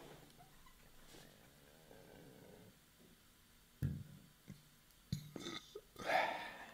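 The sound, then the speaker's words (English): A person burps a few times in the second half, with short, low, gurgling bursts at uneven intervals after a quiet stretch of faint background noise. “Did you enjoy those burps?”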